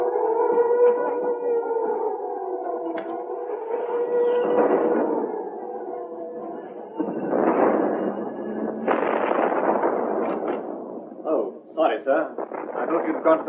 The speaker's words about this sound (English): This is an air raid warning, and I'm afraid our headquarters are in what we call Bomb Alley, so you must go to the shelter.